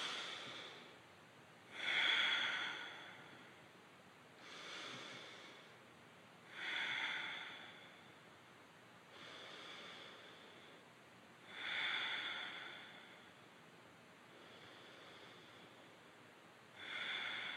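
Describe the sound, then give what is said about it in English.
Slow, deep breaths drawn in and out through the nose during a guided breathing exercise, soft airy inhales and exhales alternating louder and quieter in a steady, unhurried rhythm, faint and without talk. “it'll be four slow, deep breaths in and out. First, through the body earth, so in and out through the nose.”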